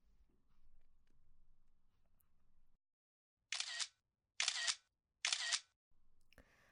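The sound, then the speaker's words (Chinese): Camera shutter firing as photos are taken: three crisp, evenly spaced mechanical clicks, each a short bright burst, after a stretch of quiet low rumble. “拍几张照片做证据，省得你以后不认账。”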